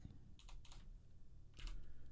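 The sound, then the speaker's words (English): Faint typing on a computer keyboard, with a few quick clusters of light clicks separated by brief pauses. “If I can type.”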